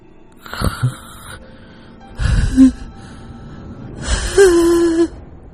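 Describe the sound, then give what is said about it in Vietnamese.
A voice imitates an old man's wheezing, asthmatic hiss with his mouth gaping, in a rural ghost story: three strained, breathy gasping bursts with rasping pitch, each rising and falling in loudness, separated by short pauses. “Lão rít như là người bị hen suyễn, mồm của lão há hốc cả ra.”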